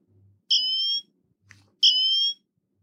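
Two high-pitched, piercing countdown beeps from a simple emergency-call phone app, each a steady tone lasting about half a second, separated by a short gap, with a faint click just before the second.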